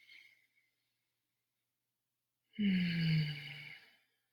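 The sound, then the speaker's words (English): A single big deep breath during a guided meditation follows near silence. It comes as a soft, airy sighing exhale with a low voiced tone, lasting about a second and a half before fading. “So take a big deep breath.”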